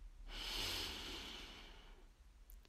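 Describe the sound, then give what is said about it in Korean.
A deep breath drawn in during a hypnosis session: one long, soft, airy hiss that swells and then fades over nearly two seconds, heard alone with no talk. “숨을 마시고”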